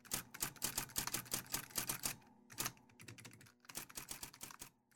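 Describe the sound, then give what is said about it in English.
Fast typing on a computer keyboard: a rapid, dense clatter of keystrokes in bursts, broken by a couple of brief pauses. “Wow, I've never seen you type so fast before.”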